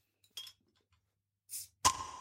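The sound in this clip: A beer bottle is opened with a bottle opener: a few short glassy clinks, then a sharp pop with a brief hiss trailing after it. No one talks.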